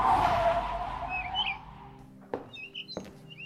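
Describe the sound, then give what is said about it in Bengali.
A car driving fast brakes to a stop at a police station, a loud rushing skid that fades over the first two seconds, followed by scattered bird chirps and two sharp thuds. “দ্রুত গাড়ি চালিয়ে উপস্থিত হলো নীলগঞ্জ থানায়”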